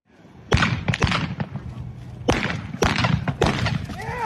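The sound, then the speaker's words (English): Gunshots fired from horseback during a mounted shooting run crack out as several sharp, loud bangs at irregular intervals over steady background noise. “if you've never heard of the sport of mounted shooting, take a listen to this.”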